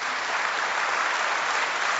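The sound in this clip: Audience applause welcoming a guest onto an interview show, dense and steady clapping that continues evenly with no voices.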